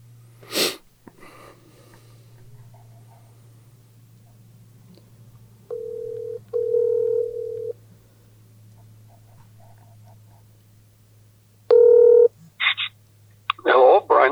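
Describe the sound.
A telephone call is placed. A sharp burst opens, then a steady electronic tone sounds in two stretches against quiet line hiss, and a few short tones and bursts follow near the end.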